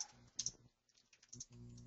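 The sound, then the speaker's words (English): Fingers type on a computer keyboard in a faint patter of clicks: a few scattered keystrokes, a short pause, then a quicker run of taps. “And so right here, yeah, you can type in,”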